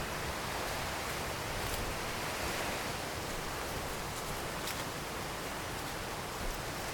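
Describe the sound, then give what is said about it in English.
Waterfall at Montgomery Falls roars in a steady, dense rush of falling water, continuous and even with no breaks. “I didn't notice it right off because I was busy looking at the falls and honestly, trying to make sure Godfrey doesn't try to go down over the falls.”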